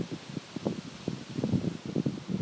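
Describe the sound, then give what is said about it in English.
Wind buffets an exposed outdoor microphone on a very windy day, producing irregular low rumbling gusts and rustling bursts that rise and fall unevenly throughout, with no voices. “I hope the microphone's exposed. I think it is. It's better than holding it in my hand. But it's very windy.”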